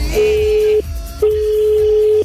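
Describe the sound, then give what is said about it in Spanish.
Telephone call tone on the line while a call rings through to someone: a steady mid-pitched hum held for a long stretch, a short pause, then the same tone again, unvarying and fairly loud. “que estamos llamando a alguien. Vamos a ver si contesta.”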